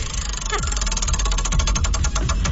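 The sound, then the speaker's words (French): A prize wheel being spun, its clicker giving a fast, steady run of ticks over a loud, low rumbling background. “on va te faire tourner la roue, puis il y a un beau privilège qui t'attend.”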